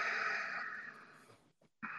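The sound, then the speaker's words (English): Slow exhale through the nose during a guided breathing exercise: a long, soft, airy rush that fades over about a second and a half, then a brief pause before the next breath begins. “Breathe in some more. Out slowly through the nose”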